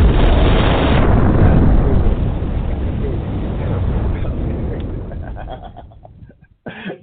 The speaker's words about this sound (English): drop that bomb sound effect right quick